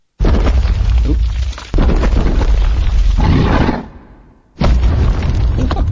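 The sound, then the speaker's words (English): Heavy rumbling crashes from a rock creature crumbling apart in a game, ending on a final crack: two long, loud bursts of grinding debris, the second fading away before one more loud burst. “With a final crack, the rock beast crumbles at your feet.”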